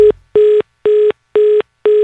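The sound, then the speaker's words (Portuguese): Telephone ringing with an incoming call: a repeated electronic tone signal of short, evenly spaced beeps, five in all with the first cut off, loud and steady with no voices. “Atende o telefone aí, mano. Ah, olha aí, mais um chamando, mais um ligando pro Romildo.”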